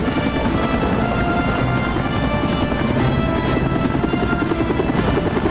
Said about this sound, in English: Rotor blades languidly swoop by overhead as the soldiers split off toward helicopters. Later, 3 Seahawks take off.